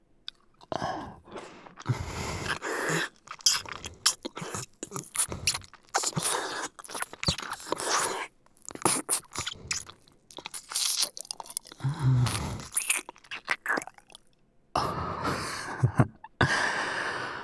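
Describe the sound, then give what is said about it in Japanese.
Wet slurping and crunchy chewing sounds come in many irregular bursts of varying loudness, separated by short pauses. “ジュルジュル音立てられんのやだ。”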